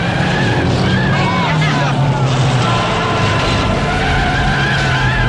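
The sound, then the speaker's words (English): Roaring car engines and skidding tyres from stock cars racing on a snowy, icy road, a loud, dense, continuous wash of motor noise that holds steady throughout. “joins the busy stock car race. She swerves on the snowy roadway.”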